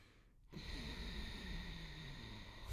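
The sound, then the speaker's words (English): A slow breath drawn through the nose with the lungs filling and the throat slightly contracted, a steady rasping hiss that starts after a brief pause and holds loud and even for over two seconds. “you fill your lungs and you slightly contract your throat and you breathe through your nose. I'll see if I can do it on the mic. Like, can you hear that?”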